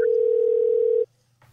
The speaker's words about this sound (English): We have a caller calling in.